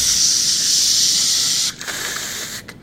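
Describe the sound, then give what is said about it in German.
A smoke grenade goes off with a loud, steady hiss for under two seconds, then a weaker, uneven hiss that sputters out. “Die Rauchgranate geht los.”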